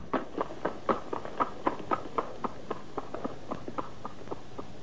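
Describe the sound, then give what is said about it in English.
A lopsided zebra's hooves clip-clop as it trots down a street, many steady, fairly faint beats in an even rhythm with no other sound. “A lopsided zebra trots up behind him and proceeds past him, heading down the street.”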